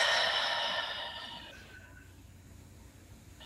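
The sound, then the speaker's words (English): A deep breath blown out during a guided breathing exercise: a long, airy exhale that is loud at first, tapers off after about a second and a half, and leaves quiet room tone. “Take another deep breath in and blow out.”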